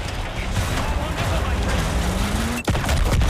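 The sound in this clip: Machine-gun fire in a video game forms a dense, continuous rattle of rapid shots that stays loud throughout, broken only by one brief dropout near the end.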